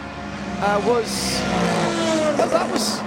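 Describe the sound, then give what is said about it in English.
Loud sports race cars passing by during a championship practice session, with a continuous engine roar and two sharper high-pitched whooshes as cars go past, while people talk over it. “Sorry, very loud cars going past you as I was trying to talk to her there.”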